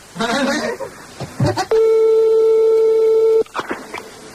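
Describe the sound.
A single long, steady telephone tone sounds during a prank call. It holds at an even pitch for under two seconds, with people talking before and after it.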